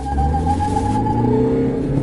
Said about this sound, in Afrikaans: 'n 2.2 turbo diesel skop 103 kW uit en 'n fris 330 Nm vanaf 'n lae 1600 toere. En hy trek nogal heel sterk deur die ratte.